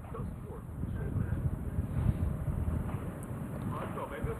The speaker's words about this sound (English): The wind's starting to pick up here.